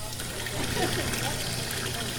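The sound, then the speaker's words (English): Water running from taps at an elementary school just before lunch, a steady rushing flow under a murmur of voices. “It's just before lunch at Union Elementary School in Montpelier, and there's a lot of activity around the water taps.”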